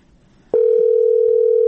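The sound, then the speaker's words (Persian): Steady single-pitch telephone line tone on a call that rings but does not connect, starting abruptly after a short quiet moment and holding loud and unbroken to the end. “زنگ میزنه منتها تیر نمیکنه.”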